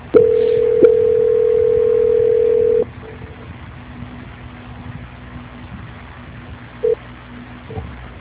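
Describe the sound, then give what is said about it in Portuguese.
Telephone tone during a call transfer: a steady, loud tone sounds for nearly three seconds with a brief hitch early on, then gives way to quiet line hiss broken by one short beep. “Só um minuto, por favor, que eu vou transferir a sua ligação. Transferência.”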